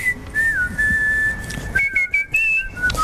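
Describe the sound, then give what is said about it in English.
A man whistles a short tune of clear, sustained notes that shift up and down in pitch, with a few brief breaks between phrases. “record some more whistling. This is his whistle from earlier.”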